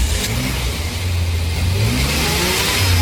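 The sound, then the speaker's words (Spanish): A car engine revs in the street with a loud, continuous throaty roar. Its deep tone swells slightly as the revving holds steady throughout. “Estamos en plena calle haciendo la nota a un excelente motor a quien ya preguntamos cómo se siente.”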